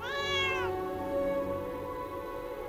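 A plump cat gives a single clear meow that bends downward in pitch as it ends, followed by a quiet, steady low hum.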